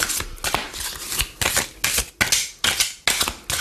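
A deck of cards being shuffled energetically, with many sharp, crisp riffling bursts in a quick, regular rhythm, each snapping in and fading out before the next.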